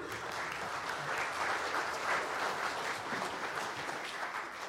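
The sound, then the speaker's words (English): An audience applauds to welcome a pastor to the church pulpit: a dense, steady wash of clapping that holds at an even level for the whole stretch, with no single claps standing out. “Can we just give Pastor Dave a very warm welcome to the pulpit today.”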